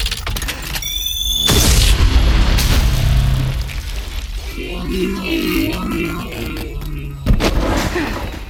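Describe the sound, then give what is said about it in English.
Heavy gunfire and booming blasts from a layered shotgun sound effect designed for an action production: several sharp, loud reports with rumbling tails, and squealing, scraping textures between them. “it ended up being this very layered piece, was like the shotgun in particular”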